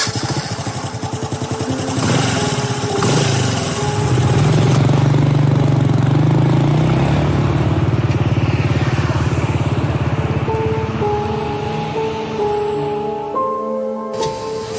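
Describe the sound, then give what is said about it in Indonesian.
A motorcycle engine runs loud and steady for the whole stretch, a dense mechanical drone whose pitch shifts and surges as the throttle changes, easing slightly near the end. “Kami berangkat jam 5 sore menuju Bandung dengan motor temanku itu.”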